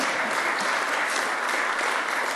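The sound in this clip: Audience applause during a civic speech on city jobs and development, a short, steady wash of many hands clapping at a fairly soft level from start to finish.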